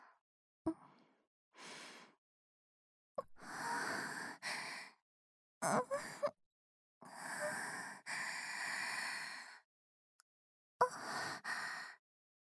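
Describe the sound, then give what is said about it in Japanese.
Deep, slow breaths, quiet and airy: a series of drawn-out inhales and exhales separated by short pauses, with a few small clicks between them. “深呼吸しちゃいました。”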